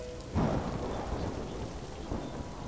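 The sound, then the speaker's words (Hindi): Thunder rumbling over heavy rain while riding a moving commuter train: a low rolling boom swells early and fades over steady, dense rain hiss. The whole scene stays fairly quiet. “बाहर बादलों के गरजने की आवाज सुनाई दे रही थी।”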